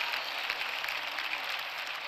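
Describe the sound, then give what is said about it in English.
Applause from a church audience clapping their hands in praise during a worship service: a dense, steady patter of many hands that runs throughout, fairly soft and even, with no clear voices on top. “Come on, if you believe it, give God a good praise. Clapping your hands is praising the Lord.”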